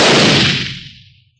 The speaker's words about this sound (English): I'm going to put a charge of powder in this old blunderbuss. Tamp the wadding. Use a nugget for a bullet. And fire into the rock near the shaft opening.